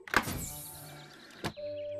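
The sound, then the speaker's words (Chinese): A car's electric window motor whirs as the glass opens, with a brief thunk at the start and another near the end, followed by a steady tone. “是打开窗户，这样空气就能流通了。”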